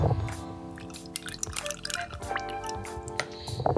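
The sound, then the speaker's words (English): Juice from one fresh lime is added to a shot of rum in a cocktail, heard as soft liquid drips and a brief, quiet trickle. “And then you're going to need to juice some limes. I think it's just one lime we've got. Yeah. And add that.”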